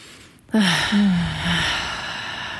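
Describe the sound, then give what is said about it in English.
A person takes quick breaths in and out during a guided breathing exercise. A sharp intake is followed by a longer, voiced, sighing exhale that fades gradually. “We'll take a couple of really quick breaths.”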